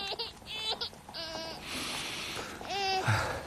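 A girl cries in faint, broken sobbing bursts, with several wavering, high-pitched wails separated by short gaps.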